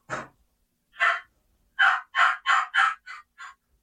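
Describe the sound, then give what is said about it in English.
Imitated hen yelp: eight short, raspy notes. Two are widely spaced, then six come in a quicker, even run that softens slightly at the end. “Let's say here's a basic hen yelp.”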